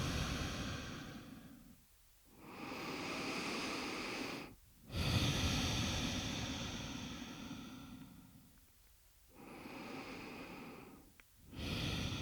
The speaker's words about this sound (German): Atme in dein Herz tief ein und aus.